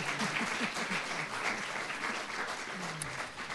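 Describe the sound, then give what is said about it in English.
Warm audience applause welcoming a church singing ensemble: dense, even clapping from many hands that continues at a steady level throughout. “If you could just give them a warm welcome.”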